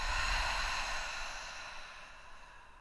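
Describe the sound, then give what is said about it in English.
A deep breath during a guided breathing exercise, in through the nose and out through the mouth, heard as one long, airy, breathy rush that slowly fades, with no talking. “We're going to take an inhale through our nose. An exhale through our mouth.”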